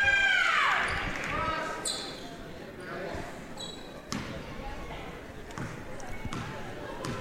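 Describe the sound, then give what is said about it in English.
A basketball is bounced a few times in hard dribbles before a free throw in a high school game involving Whitesboro. The thuds are spaced out under ongoing commentary and gym noise. “A couple of hard dribbles. Second free throw is good as well.”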